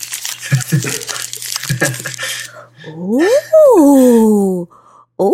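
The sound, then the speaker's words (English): Paper crinkling and tearing as a taped gift package is carefully unwrapped, with a few crackling bursts, followed by a drawn-out vocal sound that slides up and down in pitch. “Gotta open it carefully, you know. Don't want to rip the tape.”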